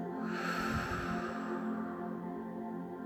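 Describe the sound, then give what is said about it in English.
One slow, deep breath drawn in and let out, a soft airy rush of air over a steady, gentle tonal backdrop. “A deep breath in and out.”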